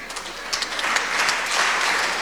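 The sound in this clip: Audience applause at a religious night vigil gathering: a steady, dense patter of many hands clapping for about two seconds, moderately loud and unbroken, with no voices over it.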